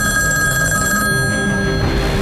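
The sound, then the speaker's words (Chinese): A telephone rings late at night, a bright, continuous ringing tone with steady overtones, loud and unbroken, with no voices. “这么晚了，谁的电话？”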